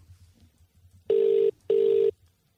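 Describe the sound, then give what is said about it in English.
A landline call rings out: two steady, mid-pitched electronic tones, each lasting under half a second and separated by a short gap, sound over a low, quiet hum. “We'll give her a ring now, on a landline, nonetheless. Dialing into South Yarra in three, two.”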